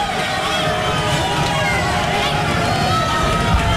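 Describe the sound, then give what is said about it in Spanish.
Stadium crowd noise as players walk onto the pitch before a football match between England and Croatia: a dense, steady roar of cheering and massed voices that holds an even loudness throughout. “Es el sonido de los estadios.”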